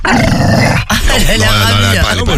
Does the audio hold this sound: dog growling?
yes